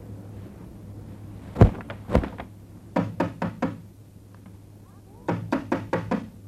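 Knocking on a door: sharp wooden raps in irregular groups, first a couple of separate knocks, then two quick runs of several knocks each. A faint steady hum runs underneath.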